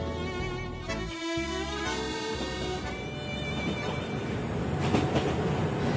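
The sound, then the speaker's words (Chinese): A train runs on rails toward Vienna, producing a loud, continuous rumble with a steady mechanical hum and rattling wheel clatter that swells slightly near the end. “列车不断驶向维也纳，我哋两个嘅心亦都随住呢个浪漫之都高速推进。”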